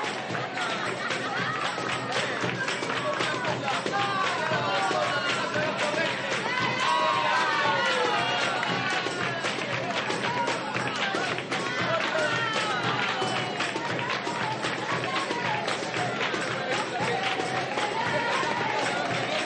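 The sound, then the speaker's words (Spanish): Wedding guests sing and clap along to flamenco, a busy, continuous wash of voices and quick rhythmic handclaps that stays lively and fairly loud throughout, with people talking amid the music. “en la boda de Luz, los invitados cantan y bailan al ritmo de flamenco. Ella toca las palmas.”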